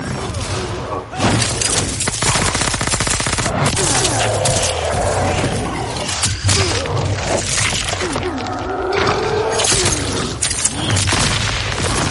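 Dense gunfire from guns hidden in a fighter's cape during a special finishing move in a fighting video game. Loud, continuous bursts run throughout, with thuds and crashing impacts mixed in.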